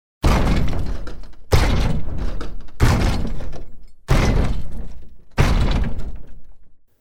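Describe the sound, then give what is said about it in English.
Layered creature stomps built from ski boots, a car door and a walking support: five heavy, booming impacts at a steady, slow pace, each trailing off in a long fading rumble. “to create those sounds, I use a ski boots, a car door, and a walking support. And again, all together sounds like this.”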